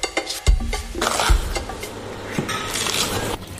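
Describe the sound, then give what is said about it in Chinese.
Deep-fried tofu-skin rolls stir-fried in a wok with fermented black beans: a continuous loud sizzle with a spatula scraping and stirring, and a few sharp metallic knocks and clinks. “油炸起酥添香，再入锅中浴火锤炼，让豆豉的风味深埋进骨肉相连间”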